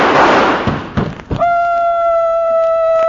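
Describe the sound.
A radio comedy gunshot effect: a few dull, heavy thumps over a noisy wash, the last and strongest followed by a steady ringing tone that hangs on to the end.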